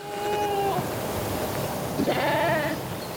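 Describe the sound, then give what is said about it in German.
Coburg fox sheep from a small herd bleat. Two clear, wavering bleats are heard, one at the start and a longer, louder one later, over a low background rumble. “Mike Franke und Jörg Berthold halten zusammen mit Ronny Ledermüller eine kleine Herde Coburger Fuchsschafe.”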